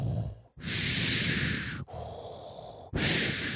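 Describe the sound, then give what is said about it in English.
A voice imitating the heavy rasping breathing of a masked villain, with a loud hissing inhale, a softer exhale, and the start of another harsh breath. “you know he's coming when you hear his breathing. He's like, and that's not snoring, that's just him breathing.”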